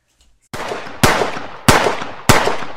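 Four loud gunshot sound effects fire in sequence after a short quiet start. Each is a sharp crack with a brief decaying tail, spaced roughly half a second apart.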